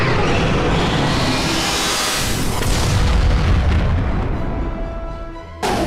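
A heavy explosion from the Final Raiden attack in a turn-based battle video game: a loud, roaring blast that rumbles on for several seconds and slowly thins out before being cut off abruptly.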